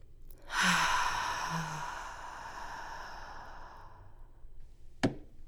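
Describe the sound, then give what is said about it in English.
A single long, deep breath, breathy and airy, swells quickly and then slowly fades over several seconds, followed by a brief sharp click near the end, with no talking. “In this moment, I invite you to k'ak'e, breathe with me.”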